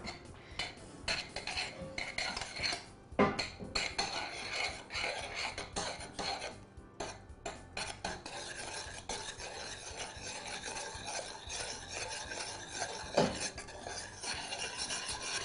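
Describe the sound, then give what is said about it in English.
Non-dairy cream cheese being stirred into a sauce until it melts: a utensil scrapes and clinks steadily against the pan for the whole stretch, with no talk. “I'm going to mix that in until it melts and the sauce is smooth.”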